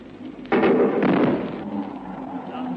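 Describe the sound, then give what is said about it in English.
A Hawker Hunter jet's double bang: two loud, rumbling booms about half a second apart, the second spreading into a long, slowly fading roar. “Here comes Neville Duke streaming in the Hawker Hunter after giving us that admirable double bang.”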